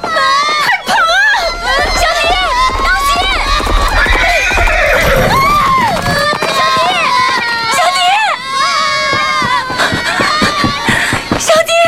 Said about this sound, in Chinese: 继续前进。 是，大家上马。